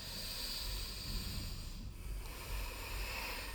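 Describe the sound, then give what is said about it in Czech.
Nasal breathing, in and out through the nose, during a singing breath exercise: a faint, steady airy hiss that runs almost unbroken, with a brief dip near the middle. “chci, abys vydechovala skrz nos ven, to znamená nádech nosem i výdech nosem.”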